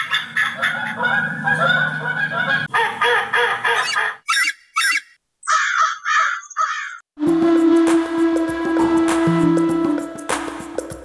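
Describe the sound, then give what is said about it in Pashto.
Many geese honk together at a protected wetland, mixed with harsh crow-like caws. A dense chorus gives way to short separate bursts of calls with brief silences, then the loud, busy flock calling resumes. “د ملګرو ملتو د چاپیریال ساتنې ادارې دا سیمه د خوندي سیمې په نوم نومولې ده تر څو وساتل شي او بیا مرغان ورته رامخه کړي.”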